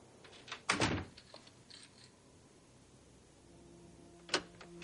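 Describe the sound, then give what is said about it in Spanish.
A door is closed behind a man arriving home: one heavy thud early on, then near-silence, then a second sharper knock near the end, all fairly faint. “llega a su casa, cierra la puerta tras él y se queda pensativo a oscuras.”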